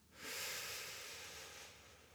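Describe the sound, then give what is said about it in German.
A slow, deep breath, a soft, airy rush of air that swells quickly and then fades gradually, faint and alone. “Atme tief durch.”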